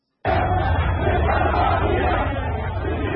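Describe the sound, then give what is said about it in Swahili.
A large crowd of protesters in Khartoum shouts against Sudanese President Omar al-Bashir. After a moment of silence, the massed yelling starts abruptly and holds at a steady, loud level to the end. “Umati mkubwa wa waandamanaji ulipiga kelele dhidi ya rais wa Sudan Omar al-Bashir jana Jumanne katika mji mkuu Khartoum, ambapo si mbali kutoka makazi ya rais.”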